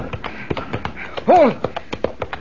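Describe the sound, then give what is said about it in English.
A horse's hooves strike as it dashes toward a burning castle, a rapid series of sharp, light taps, interrupted midway by a brief voiced shout. “Look, he's dashing right into the flames. The horse, he's going right into the burning castle.”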